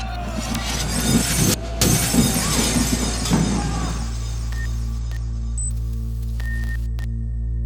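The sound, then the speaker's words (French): Shop window glass smashed with canes: loud crashing and shattering with several hard impacts for a few seconds, then the debris settles into a quieter tail with faint ringing tones over a low hum. “des bandes nationalistes vinrent une après-midi briser à coups de canne les vitres de la fameuse boutique d'Ange”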